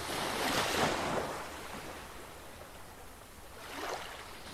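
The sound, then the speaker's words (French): Ocean waves break in two soft, hissing surges, one near the start and one near the end, with a gentle wash of water between them. “le mouvement d'eau et la génération de vagues qui va faire que ça va produire un son spécifique en fonction de chaque vague.”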